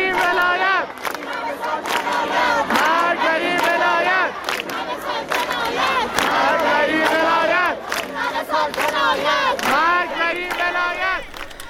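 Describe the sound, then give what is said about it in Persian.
Protest slogan chanted by a crowd at Isfahan University of Technology, many voices shouting in loud, rhythmic unison, the phrase repeating steadily over and over without pause. “صدای یکی از شعارها رو در دانشگاه صنعتی اصفهان میشنویم.”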